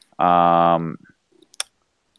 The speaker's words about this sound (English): I'm just going to click on it.